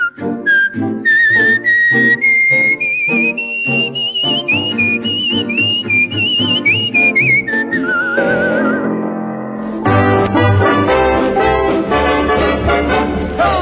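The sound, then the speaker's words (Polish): A woman whistles a cheerful, lilting melody over a bright instrumental band backing. The whistled line rises and wavers for several seconds, then stops while the music plays on loudly. “Przy tym sama gwiżdżę sobie tak wesoło i swobodnie, swym głosikiem gwiżdżę tak.”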